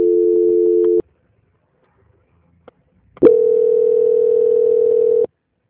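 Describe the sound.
Telephone dial tone sounds while a dropped call is redialed. A steady continuous tone cuts off, a quiet pause with a couple of clicks follows, then a second steady tone at a slightly higher pitch holds for about two seconds.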